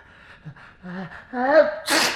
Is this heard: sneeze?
yes